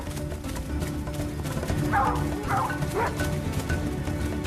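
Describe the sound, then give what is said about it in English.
A dog barks three times in quick succession. The short, sharp barks sit over a constant, noisy background. “Yellow dog barks, following their lead.”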